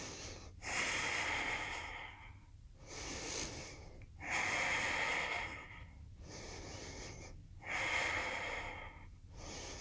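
Slow, deep breathing during a yoga pose held with heels lifted and hips sunk low: loud, airy breaths in long, even cycles that alternate between stronger and softer strokes, with no talking.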